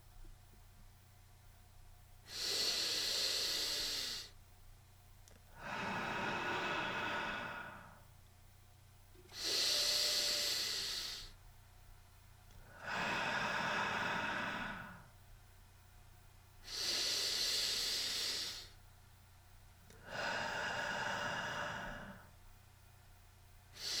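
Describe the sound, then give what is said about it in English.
Slow, deep breathing during a guided breathing exercise: six long breath sounds, each about two seconds, alternating between airy inhales and hushed exhales with quiet pauses between them. “Again, let's breathe 4 times, maintaining the same count. You can breathe along with me.”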